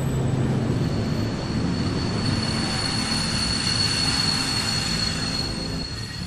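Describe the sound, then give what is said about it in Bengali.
Train pulling into Bandar station around six: a steady, loud rumble of rolling rail cars with a thin, high wheel squeal running throughout, easing off slightly at the very end. “প্রায় ছটা নাগাদ train বন্দর স্টেশনে ঢুকল”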